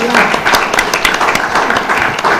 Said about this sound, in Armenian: Կարո՞ղ ես ծափարել Տիրոջ։